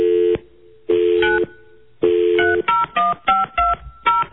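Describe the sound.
Telephone tones as a call is redialed: three steady, evenly spaced beeps, then a quick run of short, higher-pitched keypad dialing tones. Loud and clear, with no talking.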